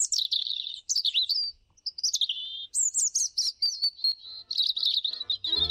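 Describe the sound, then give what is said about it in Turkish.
A European robin sings a series of high, thin, warbling phrases. Short bright trills and whistles are separated by brief pauses and heard alone, with no voices. “Doğa takvimini bugün Kızıl Gerdan'ın şarkısıyla bitirelim.”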